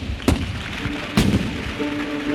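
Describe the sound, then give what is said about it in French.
Cannon fire booms outside to announce the opening of the 1931 colonial exhibition in Paris: two sharp, loud detonations about a second apart, each followed by a brief rumbling decay. “Le chef de l'État a à peine terminé son discours que retentissent à l'extérieur le son des tirs des canons. Plusieurs détonations”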